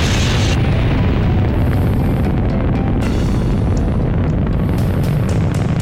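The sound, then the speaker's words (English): A massive roaring explosion stands for the Little Boy nuclear bomb dropped over central Hiroshima: a dense, loud, continuous low rumble with crackling bursts on top, sustained throughout. “At 8:15 a.m., the nuclear bomb called Little Boy was dropped over the central part of the city.”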